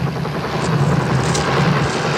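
Helicopter in flight, a continuous low rumbling drone with broad whooshing noise that holds steady and grows slightly louder toward the end, with no talk.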